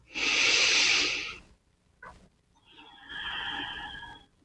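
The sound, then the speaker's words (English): A deep breath during a guided calming exercise: a long, loud breathy inhale, a short pause with a faint catch of breath, then a softer, slower exhale, with no talking. “Deep breath right there.”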